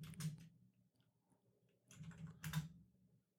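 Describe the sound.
Keys on a computer keyboard are tapped to type a search: two faint, short bursts of rapid keystrokes separated by a quiet pause.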